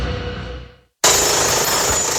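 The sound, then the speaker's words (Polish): Jackhammer, a demolition breaker offered by an equipment rental service, cuts in abruptly after a brief silence and keeps up a loud, dense, continuous rattle to the end. “Młoty kujące. Wypożyczalnia.”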